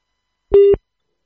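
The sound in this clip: A caller is put on hold and a single short telephone line tone sounds alone, a steady mid-pitched beep lasting about a quarter of a second.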